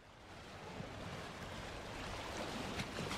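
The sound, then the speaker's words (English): Ocean waves at a beach wash in as a faint, continuous hiss of surf with slow swells and no distinct breaks, and no voices. “Hey, Smarty Pants, as you can hear, I'm at the beach.”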